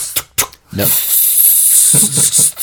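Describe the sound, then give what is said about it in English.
A voice imitates a super soaker spraying water: a few short voiced bursts, then a long, steady, breathy hiss like a jet of spray that lasts over a second before trailing into more voiced sounds. “It's really just some like movie theater attendant with a super soaker that's like,”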